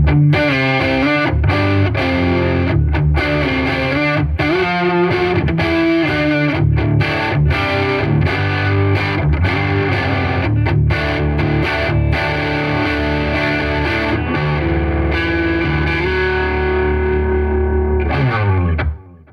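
Electric guitar through high-gain distortion on the neck pickup plays loud, dense chords and riffs with rhythmic chugging and sustained notes, continuous throughout before cutting off abruptly at the end.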